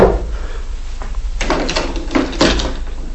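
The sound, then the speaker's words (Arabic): A door being opened in a house: after a quiet start, a few short clunks and rattles of the door and handle. “افتح الباب”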